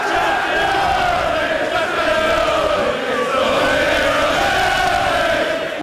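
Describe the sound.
Crowd in a London bar roaring and cheering as a long-awaited league title is won: a dense, continuous, loud wall of shouting and yelling voices that holds steady throughout.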